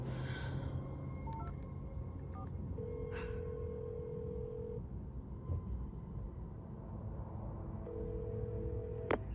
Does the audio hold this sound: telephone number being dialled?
yes